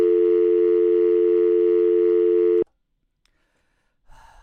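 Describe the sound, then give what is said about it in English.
Telephone dial tone after a dropped call, a loud, steady buzzing tone held for about two and a half seconds before cutting off abruptly into near silence. “I think that call just dropped.”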